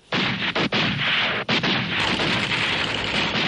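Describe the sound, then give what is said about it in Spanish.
Heavy gunfire in a desert ambush on a derailed train, with soldiers shooting between the carriages and from windows and attackers using a machine gun: a dense, loud, continuous roar of shots broken by a few brief gaps. “Los turcos tratan de repeler la agresión disparando entre los vagones y por las ventanillas”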